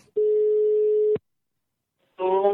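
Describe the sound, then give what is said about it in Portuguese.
An outgoing telephone call rings: one steady, mid-pitched tone holds for about a second, then silence, before another sound starts. “eu vou ligar pra Orlandina. Liga lá.”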